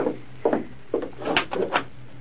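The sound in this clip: A door is unlocked and opened in a radio drama, a few soft wooden clunks and rubbing scrapes in quick succession, fairly quiet and alone.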